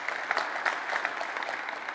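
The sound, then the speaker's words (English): Audience applause during a church sermon, with hands clapping in a steady, dense patter of moderate loudness that holds evenly throughout. “Well, if we're going to clap, let's clap. Come on, let's give God a hand.”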